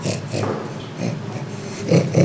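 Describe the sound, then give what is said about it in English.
An orangutan being tickled gives off a few breathy, panting bursts, like snorting exhalations, in a rough rhythm that grows louder toward the end. “If you guessed that's the sound of an orangutan being tickled, you got it right.”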